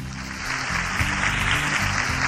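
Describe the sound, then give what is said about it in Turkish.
Audience applause for children on a kids' program who kept their first fast, a steady dense clatter that runs through the whole moment with a low tonal layer beneath it. “İlk tekne orucunu tutanlar için biz kocaman bir alkış alalım”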